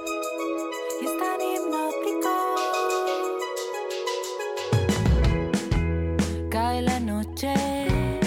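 Band music from a newly released album opens with layered, sustained melodic tones. Partway through, a deep bass and punchy drum beat enter, and the texture becomes fuller and more rhythmic.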